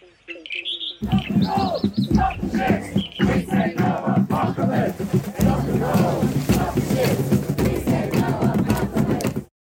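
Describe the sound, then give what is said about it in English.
Protest chants and songs from a blockade at the Newcastle coal port: many voices chant and sing together loudly and without a break for about nine seconds, with a ragged, shouting crowd texture. “You'll hear the chants and songs from the Newcastle Coalport blockade.”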